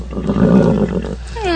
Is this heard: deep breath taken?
no